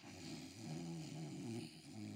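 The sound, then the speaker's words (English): A voice imitates snoring with a steady, low, rumbling drone that lasts about two seconds. It is loud and heard alone, with a brief dip near the end. “how you sleep? How you sleep snoring?”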